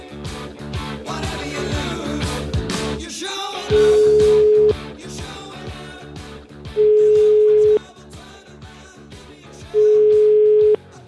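A telephone line's ringing tone while a call is placed: three steady, even beeps of about a second each, spaced a couple of seconds apart, sounding over busy background music.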